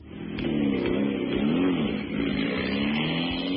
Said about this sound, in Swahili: Ian Duncan, gari aina ya Rover Vitesse